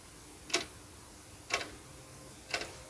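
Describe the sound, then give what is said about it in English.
A clock ticks three times, sharp, evenly spaced ticks about a second apart over a faint steady hiss. “Tick tock, tick tock. That's the sound of the clock.”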